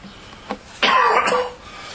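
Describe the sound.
A cough from someone speaking to a religious audience: a brief throat sound, then a longer, loud, harsh cough burst standing alone without talk.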